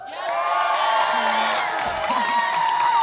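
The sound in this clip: An audience cheers to welcome a guest on stage, with loud, continuous whooping, shouting and clapping that holds steady for about three seconds.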